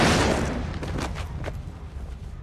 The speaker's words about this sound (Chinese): 开枪的居然是眼镜姐